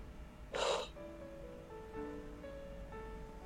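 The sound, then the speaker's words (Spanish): One sharp breath drawn in during a guided deep-breathing relaxation exercise, followed by soft, sustained musical tones. “vamos a hacer tres respiraciones profundas, inhalando por la nariz y exhalando por la boca.”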